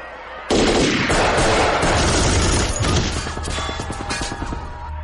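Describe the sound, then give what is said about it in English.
Heavy, continuous gunfire from units ordered to shoot at everything: a sudden loud onset after a brief quiet start, then a sustained dense barrage of overlapping shots, turning into a rapid rattling burst toward the end. “Abandon selective targeting. Shoot everything.”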